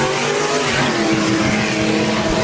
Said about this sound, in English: Two Mustangs went down the drag strip. Beautiful sight.